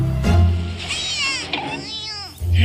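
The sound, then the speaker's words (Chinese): A child crying, with loud, wavering, high-pitched wailing that rises and falls over a deep steady background, mixed with other voices. “这大光头把我孩子都吓哭了”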